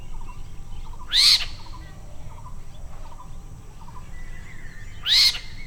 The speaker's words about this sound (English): Here's the call of the spotted owlet, recorded in West Bengal, India.